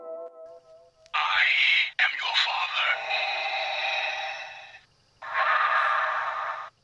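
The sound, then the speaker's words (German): Darth Vader–style mechanical breathing effect, a long, raspy, hissing breath followed by a shorter second one after a brief pause, loud and alone. “Wir müssen den guten Darth Vader natürlich ausatmen lassen.”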